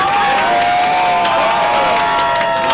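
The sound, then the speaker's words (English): Loud crowd cheering from anti-regime activists gathered around a TV during a New Zealand vs Iran football match, a dense, unbroken roar of voices that holds steady throughout. “They cheered when New Zealand scored the first goal.”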